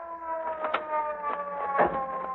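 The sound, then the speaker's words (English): A police car siren gives a steady, layered wailing tone, fairly faint and continuous, with a few short noisy bursts rising through it. “here comes the police car. Yeah, we'll flag it down. Get this guy under handcuffs. It's stopping”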